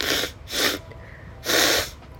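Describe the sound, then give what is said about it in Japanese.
Someone blows their nose three times, each a loud, breathy burst of air through the nose, with short pauses between them. “ごめんなさい鼻めっちゃ噛んでる”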